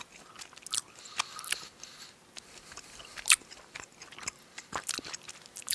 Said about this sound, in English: Man, it tastes like an orange Skittle. Tastes like the same thing it always has tasted like.